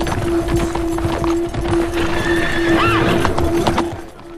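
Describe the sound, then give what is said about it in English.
A horse's hooves clip-clop steadily as a rider heads off alone, and a whinny breaks out midway before the hoofbeats fade toward the end. “Billy rides off alone.”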